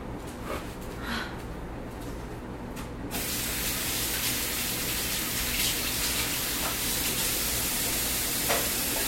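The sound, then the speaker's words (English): Water runs from a tap as hands are washed while making cookies, a steady hissing spray that grows fuller and louder after about three seconds and continues evenly. “So, now let's get ready. I'm going to wash my hands.”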